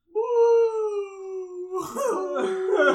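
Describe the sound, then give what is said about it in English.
A person vocally imitates a beluga whale call with a long, high, wavering hoot, after which other voices break in. “We were at the aquarium in Atlanta. And we seen the beluga whales. And then one looked at the other and went,”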